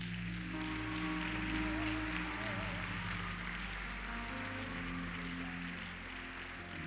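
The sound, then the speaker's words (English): Church audience clapping in praise: dense, sustained applause that rushes like steady rain, holding a fairly even level throughout. “If that's you today, let's give the Lord a hand clap of praise.”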